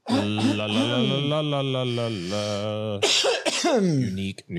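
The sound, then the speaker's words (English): A man clears his throat: a long voiced, rumbling effort, then a few shorter harsh bursts. It is loud and heard alone. “I cannot get my throat clear.”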